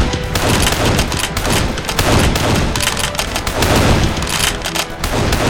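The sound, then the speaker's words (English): A box of 10-gauge double-aught buckshot shells exploding in a fire: loud, dense bursts of sharp cracks and bangs that pile up into a continuous, ragged volley with no pauses. “Suddenly, a box full of 10-gauge double-aught buckshot shells Smoke had put into the fire began to explode.”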